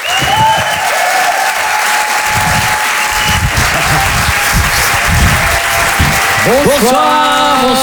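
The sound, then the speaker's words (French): An audience applauds and cheers at a live comedy club show with dense, loud, steady clapping that fills the whole stretch, then a voice begins speaking over it near the end. “faites du bruit s'il vous plaît pour les jumeaux.”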